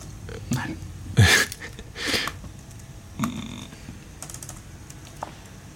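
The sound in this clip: Typing on a computer keyboard comes through as a few scattered, clattering bursts of keystrokes, fairly faint and separated by short gaps.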